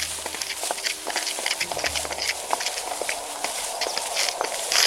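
Footsteps of an iguanodon dinosaur walking out of a forest: many steady, crunching steps in a regular plodding rhythm, moderately loud and continuous, with no voices.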